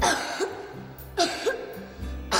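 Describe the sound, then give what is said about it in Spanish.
Several short coughs, a symptom of an asthma attack, come in uneven bursts with breathy throat sounds between them. Two of the coughs are noticeably harsher and louder than the others. “Tos.”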